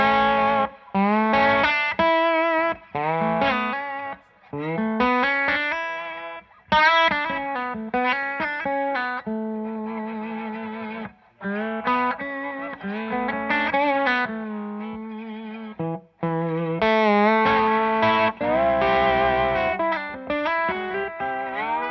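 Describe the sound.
Slide guitar played over its open bottom three strings, with the slide gradually angled across them. A distorted, chorus-effected tone sustains gliding, ringing notes and chords, broken by a few brief gaps, and no one talks.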